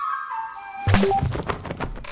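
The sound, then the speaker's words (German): Water balloon thrown at someone in front of a house, landing with a single dull, heavy thud, followed by a scattered splashy crackle, after a held, stepping-down tone. “jemand hat gerade eine Wasserbombe nach mir geworfen. Direkt vor unserem Haus.”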